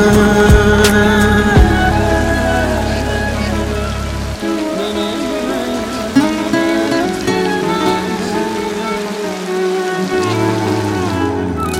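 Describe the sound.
Rain patters steadily under a melodic music track, a constant soft hiss of drops running beneath the instruments throughout.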